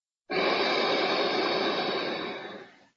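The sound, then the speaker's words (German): One long, slow inhale during a guided breathing meditation: a soft, airy hiss that starts abruptly, holds steady for over two seconds, then tapers off gently into silence. “Ich atme ein”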